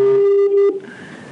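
A telephone ringback tone sounds on an outgoing call, a loud, steady, mid-pitched electronic tone that holds and then cuts off abruptly, leaving a quieter, higher hum.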